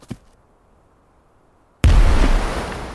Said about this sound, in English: The first grenade catches the Germans off guard with half the force going down.